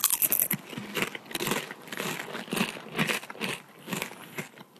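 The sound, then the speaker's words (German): Two people bite into and chew potato chips, with many loud, crisp crunches that come in a quick, uneven run and leave no pauses between the bites. “Jetzt hört ihr einfach zwei Leute, die einen Chip essen.”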